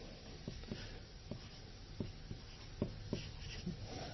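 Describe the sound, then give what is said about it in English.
Faint scratching of handwriting, a word being written out by hand, with a few short strokes ticking through a steady background hiss. “I'm going to have to write descendants again. There we go.”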